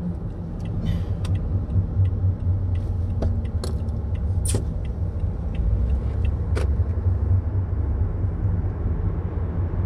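A car driving on a road gives a steady, loud low rumble of engine and tyre noise throughout, with a few faint ticks and clicks on top.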